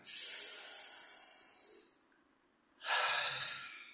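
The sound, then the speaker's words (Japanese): A deep breath taken during a guided breathing exercise: two long, breathy rushes of air, the first stretching nearly two seconds, then a brief quiet gap before the second begins. “ちょっと体を動かして脳に酸素を取り入れていきましょう。はい、深呼吸。”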